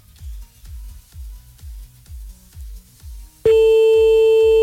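A loud, steady telephone tone cuts in near the end as someone calls back after being cut off. A repeating low, thumping pulse runs under it and through the whole clip.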